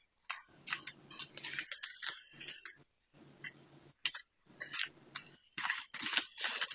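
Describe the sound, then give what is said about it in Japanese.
A 78-card tarot deck is shuffled and mixed by hand on a table, making many soft papery rustles and light clicks in irregular bursts with short pauses and no talking. “使用するタロットカードは全部で78枚です。そのカードを今私のテーブルの上でかき混ぜています。”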